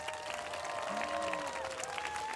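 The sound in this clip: An audience claps for two world-class dancers as they are welcomed. The applause is a steady, even wash of many hands that holds at a constant level throughout.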